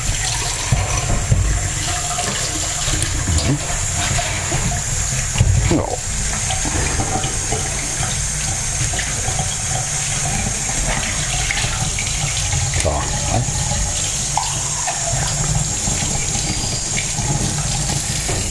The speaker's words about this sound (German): Jetzt nehme ich die beiden Tassen, also den Becher und die Tasse so. Und dann werden wir so mal abspülen. Ausspülen, abspülen, wie auch immer.